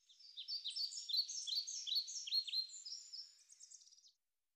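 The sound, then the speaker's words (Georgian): A bird chirps a quick run of high, bright notes for about four seconds, ending in a brief trill, faint and alone. “ჭიკ ჭიკ ჭიკ. ჭიკ ჭიკებს ჩიტი.”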